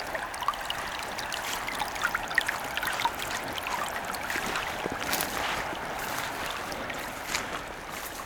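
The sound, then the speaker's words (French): Soft lapping and trickling of water at a peat bog about 750 metres up, a steady, even wash of gentle splashes that holds at an even level throughout with no voices. “On retrouve le clapotis de l'eau, la tourbière,”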